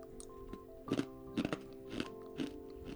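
Someone crunches a spicy kaki-pi snack of rice crackers and peanuts made to go with beer, producing a few short, faint crunching bursts over a steady low hum.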